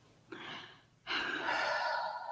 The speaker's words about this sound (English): But if you really stop to think, you know what? Take a breath.